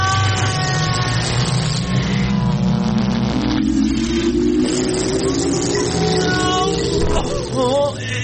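A car engine revving, its loud, continuous drone climbing steadily in pitch throughout, with other tonal sounds layered over it.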